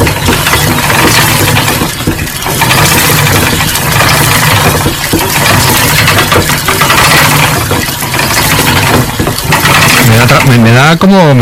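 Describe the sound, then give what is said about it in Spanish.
A wooden spinning wheel turning as it spins thread, heard as a loud, continuous mechanical whirr and rattle. It holds a steady, engine-like rhythm throughout. “esta pintura de Velázquez, en las hilanderas, la rueca está trabajando, está sonando y tiene un sonido que sonaría así.”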